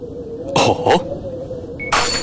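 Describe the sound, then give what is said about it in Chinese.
A porcelain water bowl slammed down on a table and shattering into pieces: a couple of bright, sharp crashes burst out over a low steady hum. “几声脆响，一个瓷水碗被重重地摔在桌子上，变成了几块碎片。”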